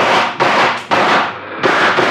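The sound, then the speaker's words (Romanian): A volley of gunfire is aimed at elephants: loud blasts in quick succession, each with a long, noisy, roaring tail that runs into the next. “Atențiune, ochiți, prieteni. Atențiune, foc!”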